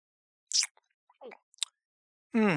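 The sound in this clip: Someone bites into a cold kebab and chews it: one crisp bite, then a few soft, wet squelching chews separated by quiet gaps.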